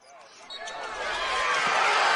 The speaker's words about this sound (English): Welcome back to the Fargo Dome. As you might be able to tell, we've got a basketball game going on here.